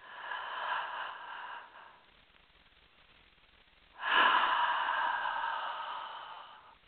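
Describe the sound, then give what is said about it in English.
Slow, deep breath in and a gentle exhale during a guided meditation: a soft, airy inhale, a quiet pause, then a longer, fuller breath out that gradually fades. No talking. “So let's start by taking a nice, long, slow breath in, exhaling gently.”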